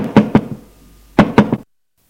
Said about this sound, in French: Frappe à la chambre de sa femme.